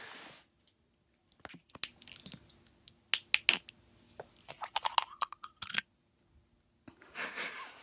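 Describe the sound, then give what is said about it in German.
Opening a Wolwig bottle: a run of sharp, irregular clicks and crackling crunches, followed by a short breathy hiss at the very end. “So, jetzt nochmal hier ein Öffnen der Wolwig-Flasche.”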